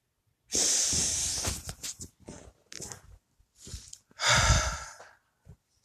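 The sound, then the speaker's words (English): Deep breathing during a calming stress-relief exercise: slow, loud, airy inhales and exhales. A long breath opens, then softer breathy puffs follow, and a final strong breath ends it, with no talk. “Three deep breaths.”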